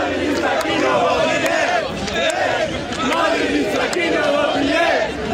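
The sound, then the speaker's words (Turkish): Barcelona fans celebrate the championship in the streets with loud, continuous crowd noise. Massed voices chant and shout in rising and falling waves without a break. “Taraftarlar uzun süre evlerine gitmeyerek Real Madrid zaferiyle gelen şampiyonluğu kutladı.”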